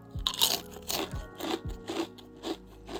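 Crisp crunching as Kinokuniya chili-oil shrimp rice crackers with garlic fried chips are bitten and chewed: a steady series of sharp, crackly bites, loud and close, with no talking.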